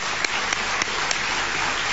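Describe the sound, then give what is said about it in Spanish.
Audience applause at a book fair in Las Varillas: an even, continuous patter of many hands clapping, with a few slightly louder claps popping out of the steady wash. “¿Lo pueden aplaudir?”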